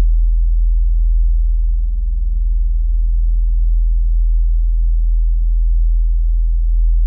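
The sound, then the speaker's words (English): A steady 40 hertz gamma stimulation tone plays as a very low, constant droning hum, much like a fan or a low rumble. Its level stays even for the full length, with no other sounds. “For reference, here's what 40 hertz sounds like.”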